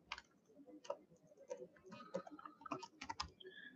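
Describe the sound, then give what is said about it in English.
Keys clacking as a web address is typed on a computer keyboard, a quick, irregular run of faint clicks and taps with brief pauses between bursts. “I'm gonna type it here so you guys can check it out.”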